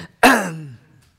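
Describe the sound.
One throat clearing from someone with something caught in the throat, a short, harsh voiced burst that drops in pitch and fades out quickly against near silence.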